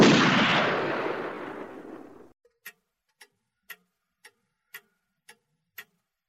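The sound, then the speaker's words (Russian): A pistol shot fired from under a bedsheet: one loud blast that decays over about two seconds and then cuts off, followed by a steady run of faint, evenly spaced clock-like ticks. “А из-под простыни показалось дуло пистолета. Выстрел.”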